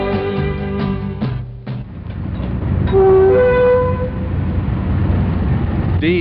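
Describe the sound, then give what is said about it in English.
A big Deltic diesel locomotive hauling an express train, easing slowly and gently to a halt against the leading brake van: loud, heavy engine rumble throughout, with a brief horn tone in the middle. “D-9019 is the big Deltic diesel locomotive hauling the Aberdonian on this journey. It came slowly and gently to a halt in contact with the leading brake van”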